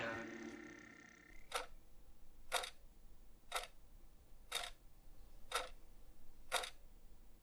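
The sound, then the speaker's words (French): Second hand of a kitchen clock ticking: six sharp, dry clicks spaced evenly one second apart, each crisp and brief over a faint background hiss. “Ça, c'est le bruit de la trotteuse de la pendule de ma cuisine.”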